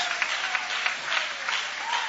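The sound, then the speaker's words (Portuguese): A church audience applauds during a worship service, a steady patter of many hands clapping together with slight surges in intensity, fairly soft and continuous for a couple of seconds. “Guarda a Bíblia com carinho e podem aplaudir a Deus com alegria.”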